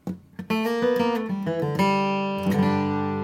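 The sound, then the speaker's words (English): An electric guitar lick of the kind used to end a solo. A few quick picked notes step along, then resolve into a loud, sustained ringing note that lingers and slowly decays. “Now, the final portion of this lick is just as useful, and I like to use it as the ending to a guitar solo. Let me isolate the piece first”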